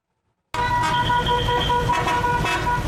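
Car horns sound from a convoy of 18 antique classic cars of assorted makes and models on a street in Erzurum. After a brief silence, loud, steady, sustained honking starts abruptly over a low engine rumble.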